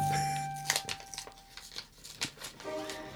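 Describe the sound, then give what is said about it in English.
An envelope is torn open with a run of short, papery rips and crinkles, irregular and fairly soft, over a faint steady tone. “I'm going to open the envelope. Your envelope open.”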